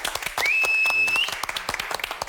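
Applause from a cooking competition audience: dense, steady clapping throughout the short stretch, with a sustained high whistle tone briefly above it and no talk.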